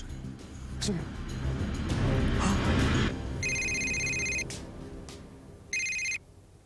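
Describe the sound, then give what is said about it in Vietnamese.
A telephone rings out while calling the police hotline, two bursts of a high, buzzing electronic ring separated by a short pause, coming after a stretch of busy, noisy sound. “Chúng tôi đang liên hệ với đường dây nóng của cảnh sát.”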